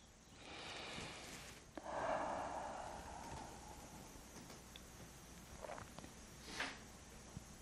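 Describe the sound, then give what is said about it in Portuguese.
A deep inhalation taken during a guided meditation: one long, soft breath drawn in through the nose, a hissy rush that swells and then fades, with a few faint sniffs and rustles afterward. “Vamos destruir e descriar Inspira profundo.”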